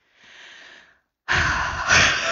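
A person takes a deep breath: a soft, airy inhale, then a short pause, then a much louder, rushing breath that lasts about a second.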